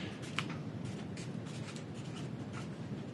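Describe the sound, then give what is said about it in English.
A pen scratches steadily on paper while someone writes at length, a faint, continuous papery rasp with small irregular strokes and no pauses. “Wow, you remember the entire first date with how much you're writing.”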